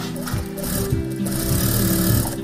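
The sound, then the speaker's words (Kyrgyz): Sewing machines whir steadily in a small garment workshop with five machines, a continuous mechanical drone with rapid stitching pulses, with no talk over it. “ушул жерге цех ачтык да. Азыр мына бул жерде 5 машинка бар. Ушул 5 кызды иштетебиз.”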